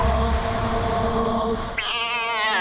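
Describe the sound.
A cat meows in a loud, drawn-out, wavering cry, alone without any talking.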